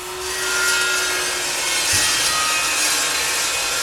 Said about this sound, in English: A mason scrapes the extra cement from a newly laid brick wall.